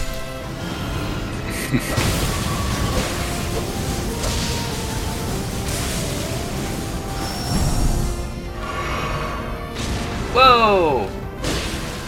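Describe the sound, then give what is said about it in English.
A fire potion explodes in a video game with crashing, smashing bursts over a dense bed of game sound effects, followed by a louder late impact. “Oh, the duplicate is shooting lightning bolts. Oh, he threw a fire potion.”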